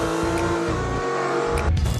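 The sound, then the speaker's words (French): Loud, steady engine drone from a rare Ferrari, one of only 349 built, with a dense hum of harmonics that holds evenly across the whole clip. “C'est quand même une des Ferrari les plus rares au monde. 349 exemplaires seulement.”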